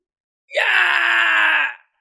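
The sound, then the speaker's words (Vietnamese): A man screams in pain after a fighter's blow to the belly, letting out one loud, drawn-out cry of about a second and a half that holds a fairly steady pitch and stops abruptly. “Thái Đà hét thảm, thanh âm xương cốt vỡ vụn từ trong cơ thể truyền ra”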